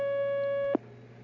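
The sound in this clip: Steady telephone line tone as a call comes through, a single held buzzy tone that cuts off abruptly with a click, leaving a quiet hiss on the line.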